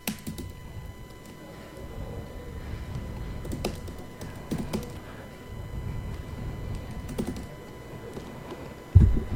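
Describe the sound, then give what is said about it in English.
Clicks of typing on a computer keyboard come in irregular bursts over a low, steady hum, the keys light and uneven, with a dull thump near the end. “listen to me type.”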